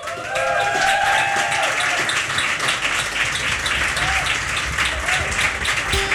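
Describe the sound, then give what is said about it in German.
Audience applause at a live radio session on a rooftop terrace: a sustained wash of many hands clapping that starts almost at once and stays loud and even throughout. “Applaus!”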